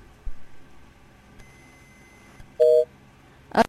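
Telephone tones sound as a call drops: faint clicks over a quiet line, then a single steady beep, followed by a brief harsh burst at the end.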